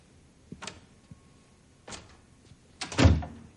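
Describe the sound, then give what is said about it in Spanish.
An office door closing: a few light knocks and handling clicks lead to a final, louder thud as it shuts. The sound is moderately quiet overall, with no voices. “Alan entra en su despacho y cierra la puerta.”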